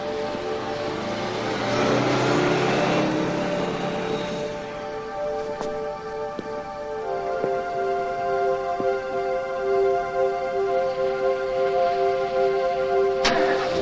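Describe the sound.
Car engine starting and the car driving slowly: a rough, noisy rumble for the first few seconds gives way to a steadier engine hum with a faint whining overtone, moderately loud and without voices.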